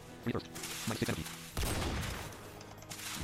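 Shotgun blasts in a video game: a few sharp bursts in the first seconds, then a dense stretch of continuous noisy game sound, moderately quiet overall.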